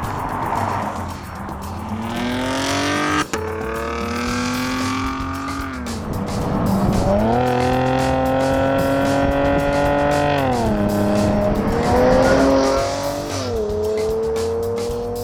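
A 2016 Chevrolet Camaro with a 335-horsepower V6 and conventional automatic transmission is driven hard with traction control working. The engine drones loudly and climbs in pitch, with a few dips where the gearbox shifts.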